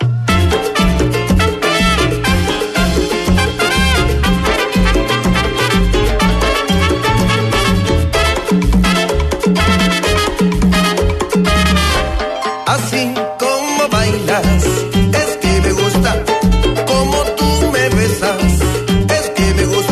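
Loud, dense band music drives along with a steady rhythmic pulse and full instrumentation, dropping out briefly around the middle before picking back up and continuing to the end.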